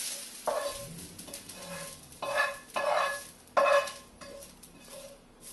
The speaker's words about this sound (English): So I've lightly fried the onions till they're transparent and golden brown. And just add them in.